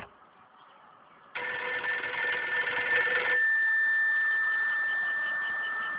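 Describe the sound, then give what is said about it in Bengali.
A landline telephone rings over a poor, unclear line: a steady electronic ringing tone starts abruptly after a quieter hiss, then holds loud and unbroken with a constant pitch to the end. “কে যে ল্যান্ডফোনে phone দিচ্ছে তখন থেকে?”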